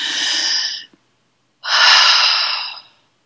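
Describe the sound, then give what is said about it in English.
Breathing exercise with one long breath. Two sustained, airy rushes of breath are separated by a short pause, each loud and steady before fading away. “And then you do one long breath.”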